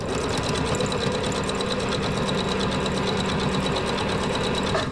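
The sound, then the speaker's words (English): A sewing machine stitching adaptive clothing for children with feeding or medicine tubes in a backyard shed, giving a steady, rapid mechanical whir and ticking that runs evenly and loudly throughout. “The sewing, mainly on machines, is done in Eileen's backyard”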